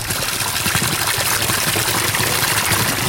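Spring water pours from a small well at full stream despite a recent dry spell, making a loud, continuous rushing and splashing that stays steady throughout, with no voices.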